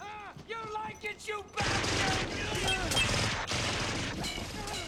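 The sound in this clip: Gunfire in a film: after a brief stretch of talk, a dense, loud burst of rapid shots and crashing noise runs without a break to the end.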